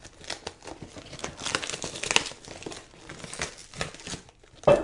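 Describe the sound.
Crinkling and tearing of packaging as a taped parcel holding shirts is opened and unwrapped, a steady run of crackly rustling with a sharper, louder rip at the very end.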